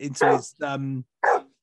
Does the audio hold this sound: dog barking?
yes

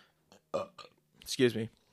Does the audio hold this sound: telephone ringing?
no

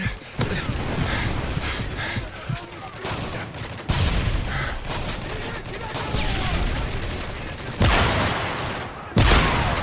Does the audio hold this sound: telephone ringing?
no

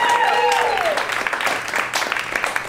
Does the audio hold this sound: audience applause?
yes

